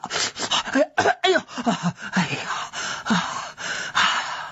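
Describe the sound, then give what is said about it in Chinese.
A voice imitates someone coughing while drinking water: many rough, breathy coughs and gasping bursts in an uneven rhythm, loud and strained, with no words. “一边喝一边咳嗽”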